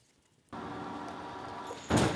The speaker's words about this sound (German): Das ist ein typischer Crashtest. Hier geht es um die Sicherheit von Radfahrern.